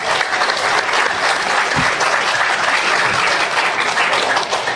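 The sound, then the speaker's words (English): Audience applause welcoming a guest presenter to a talk: dense, steady clapping that stays loud and even from start to finish, without speech over it. “So let's hear it for Cecilia von Beroldingen.”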